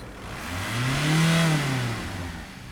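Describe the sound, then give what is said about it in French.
A motor vehicle passes in the street. Its engine hum swells to a peak midway and then fades, over a constant wash of traffic noise. “Bah j'entends, j'entends les voitures. Bah il y a les voitures, les motos, bah les vélos,”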